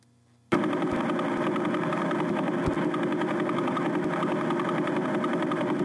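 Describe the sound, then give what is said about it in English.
Sonified radio pulses from a neutron star spinning 11 times per second start abruptly and run as a steady, buzzing drone of rapid pulses, unbroken and at even loudness to the end. “But there are many neutron stars out there, and some spin faster. That was 1.4 times. Here's another one that's spinning 11 times a second.”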